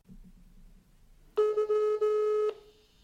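A telephone call tone sounds as someone rings a friend. It is a steady, loud electronic tone lasting about a second, with two brief dips, and it follows a quiet low background murmur.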